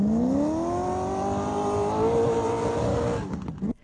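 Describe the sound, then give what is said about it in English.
A racing car's engine roars during a race event, a loud, sustained high-revving tone whose pitch climbs gradually before it breaks up and cuts off near the end. “A roar of that car”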